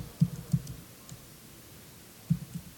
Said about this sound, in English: I can type the password right.